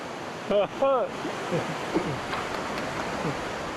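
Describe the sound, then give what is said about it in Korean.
Rushing water of a fierce mountain valley stream makes a steady, dense roar throughout, with a brief voice sound near the start. “거센 계곡의 물소리를 들으며 무사히 볼일을 마쳤습니다.”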